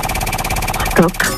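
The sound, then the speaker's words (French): Rapid, steady rattling ticks come from a game show prize wheel as it spins, with a brief voice cutting in near the end. “Je lance la roue ? Oui, oui. Allez, hop là. Vous dites stop quand bon vous semble.”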